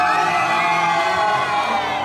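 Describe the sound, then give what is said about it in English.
Wedding guests cheer and whoop loudly as the bride's braid is let out in a traditional gypsy wedding ritual, a sustained wall of excited shouting voices filling the whole moment. “When Pertti's hair is let out of its braid, everyone here at the wedding cheers.”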